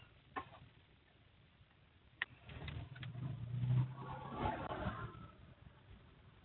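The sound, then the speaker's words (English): Faulty vehicle drivetrain noise: a low mechanical rumble that swells through the middle and then eases off, preceded by a couple of sharp isolated ticks. “That sounds drivetrainy.”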